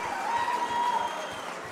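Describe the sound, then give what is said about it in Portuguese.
Applause from an audience at an evening honours ceremony, a steady wash of clapping at moderate volume with a faint thin whistle rising briefly through it. “Mais uma salva de palmas a Raimundo Soares Rodrigues”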